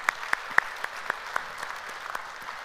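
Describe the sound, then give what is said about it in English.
A church audience applauds to welcome online viewers into the service, a light, fairly quiet patter of scattered hand claps with a few sharper individual claps standing out. “today we have family meeting out at Stone Canyon, as well as others watching online, so if you would put your hands together, welcome them into our service today.”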